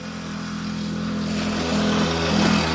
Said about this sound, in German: Vincent Hagen fährt mit seinem Moped auf der Landstraße an ihnen vorbei